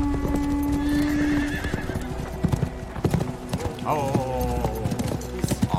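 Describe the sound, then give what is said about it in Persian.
Hooves of several ridden horses clip-clop as they approach, a busy stream of many hoof strikes, broken by a horse's neighing whinny partway through. “چند تا سوار دارن میان.”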